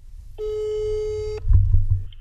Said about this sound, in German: Ich rufe ihn an.